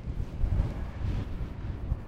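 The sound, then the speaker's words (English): Wind whips across an exposed hillside, making a steady low rumbling buffet with gusty swells throughout. “The wind is really whipping across now. We're really quite exposed at this side of the hill.”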